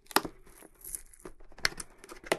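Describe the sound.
Packaging tape tearing while Creative SX-Fi Theater wireless headphones are unboxed. A few sharp, quiet rips stand out over softer crinkling of the packaging.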